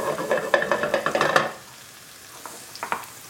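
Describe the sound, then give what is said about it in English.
A pan is shaken to sauté garlic and ginger in sesame oil, producing rapid rhythmic scraping and rattling bursts that stop abruptly, leaving a soft steady sizzle with a few faint clicks. “So I'm just shaking the pan to kind of sauté it a little bit.”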